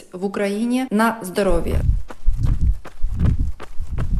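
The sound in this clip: Slow, steady jogging footsteps fall on an asphalt forest path as regular soft thuds, after a brief voice at the start.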